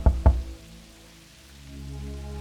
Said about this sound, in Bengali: তখনও ভালোভাবে ঘুম ধরেনি অর্কের হঠাৎ দরজায় মৃদু টোকা পড়ল